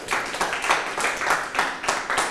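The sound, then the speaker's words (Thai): Students in a classroom clap for themselves in short, evenly spaced, rhythmic bursts that repeat steadily and fairly loudly, with no talk over them. “ปรบมือให้ตนเอง”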